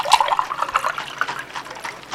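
Cold lemon water being poured, a steady, fairly faint splashing trickle with small bright drips, heard alone without talk.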